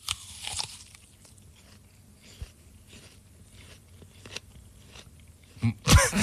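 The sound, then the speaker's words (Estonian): Biting into and chewing a crunchy apple: a few sharp, crisp crunches spaced out by quiet gaps over several seconds, ending in a louder burst of crunching. “Ei, ma ei hoia päriselt, ma söön päriselt õuna.”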